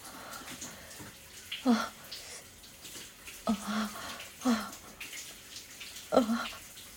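Bath water splashes and sloshes faintly in a tub as a soft, steady wash, with a few brief voiced sounds rising above it.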